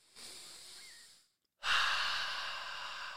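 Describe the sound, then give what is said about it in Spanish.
Slow, deep breathing during a calming exercise: a soft, airy breath, a brief silent pause, then a longer, louder breath that gradually trails off. “Cálmate, respira conmigo, cuentas a tres.”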